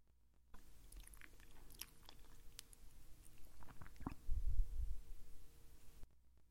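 Soft chewing of food, faint and moist, with a few small crunchy bites and some low, muffled thumps of the jaw near the end. No voices are heard.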